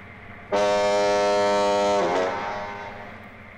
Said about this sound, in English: That's why there's a lighthouse, right on the end of the pass. You can't see it now, but you can hear it.